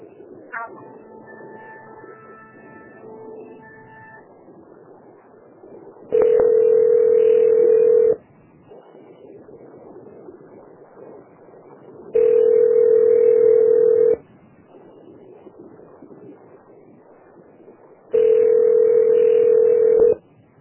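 Telephone ringback tone while a call is transferred: three long, steady tone bursts of about two seconds each, spaced roughly six seconds apart, over a low line hiss and hum, with some brief beeping tones at the start.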